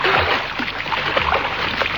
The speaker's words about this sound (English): Not sorry to have the pool to ourselves. Are you, darling? Not a bit. And the water's marvelous. The swim is just what we needed.